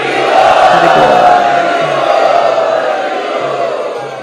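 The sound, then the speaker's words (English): A crowd chants loudly in unison to welcome first-time students, a dense, sustained wall of many voices that swells early and stays strong throughout. “And let us welcome all of these students who have come for the first time by very loudly chanting.”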